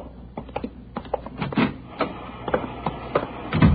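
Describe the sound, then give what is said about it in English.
An IBM punch card machine processing a stack of cards: rapid, uneven mechanical clacks and thumps at moderate loudness, some heavier knocks among lighter ticks, and no voices. “She's running all the cards on previous shooting through the IBM machine. She ought to be through about now.”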